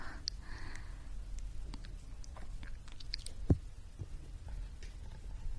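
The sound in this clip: Chewing and biting on food, eaten close up: one sharp crunching bite stands out near the middle, with fainter chewing noises before and after it over a soft, steady background.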